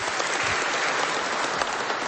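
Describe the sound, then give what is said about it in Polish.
Applause from an audience at a prayer gathering, honoring a couple married just five days earlier. Dense, steady clapping holds an even level throughout, with no voices over it. “Wielkie brawo dla tych młodych, którzy tutaj chcieli dzisiaj z nami być.”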